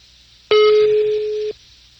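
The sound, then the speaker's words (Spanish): A telephone ringback tone while a call is being placed: one steady, mid-pitched electronic tone lasting about a second, starting and stopping abruptly between stretches of near silence, with no voices. “Está marcando y luego no contesta.”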